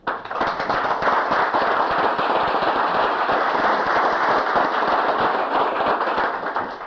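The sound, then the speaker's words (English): Audience applause in a legislative chamber welcomes a group of sixth grade students from a middle school. Dense, rapid clapping starts abruptly, stays loud and even for about six seconds, then eases off at the end. “if they would all stand and we could give them a hand and welcome them here”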